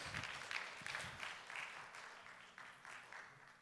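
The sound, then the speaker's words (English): A church audience clapping their hands in praise, a faint patter of many claps arriving in a few uneven bursts that gradually soften toward the end. “Come on, somebody, give God a hand clap of praise.”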